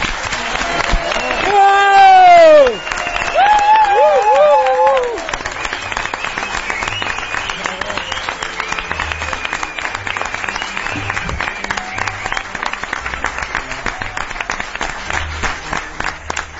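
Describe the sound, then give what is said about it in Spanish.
A radio studio audience applauding and shouting. High whoops and cheering voices ring out over clapping in the first few seconds, then dense, sustained applause carries on loudly to the end. “ahora podéis hacer todo el ruido del mundo, porque queremos y quiere toda la audiencia, las cientos de miles de personas que nos están escuchando, que os escuchen, que casi casi apaguen la radio. Aplaudir y gritar.”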